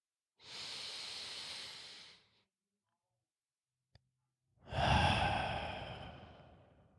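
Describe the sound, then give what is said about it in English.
A deep breath is drawn in through the nose as a steady, airy hiss lasting nearly two seconds. After a pause with a tiny click comes a louder, fuller exhale out through the mouth that slowly fades away. “Take one deep breath with me.”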